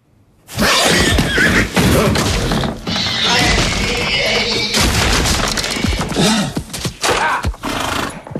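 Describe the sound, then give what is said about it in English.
A horse rears in its stall and smashes its front hooves against a chest-high stall door. Loud, shrill whinnying and heavy banging crashes go on almost without pause after a short quiet opening. “Pilgrim rears up, smashing at the door with his front hooves.”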